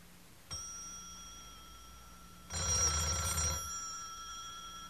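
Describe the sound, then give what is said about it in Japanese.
A telephone bell rings: a steady ringing tone starts early, a louder, rattling burst of ringing comes in the middle, then the tone carries on to the end. No voices. “その時はとうとう来た。やつらからの最後の電話が。”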